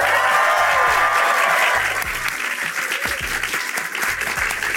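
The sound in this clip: Live festival crowd at the BFI and Radio Times Television Festival on London's South Bank, applauding and cheering. The clapping is loud, dense and sustained throughout, with some raised cheering voices in the first half.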